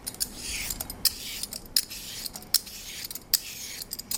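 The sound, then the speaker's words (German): A vegetable peeler shaves a field cucumber in a steady run of crisp, rasping strokes, repeated at an even rhythm as the flesh is planed into a bowl. “Und nach dem Schälen, wenn ich mit meinem Sparschäler schäle, tue ich einfach weiter mit genau derselben Bewegung und tue mein Fruchtfleisch in eine Schüssel hobeln.”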